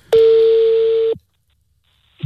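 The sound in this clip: A single steady telephone tone sounds for about a second as a call is placed over a phone line, then cuts off to silence before a brief faint noise at the end.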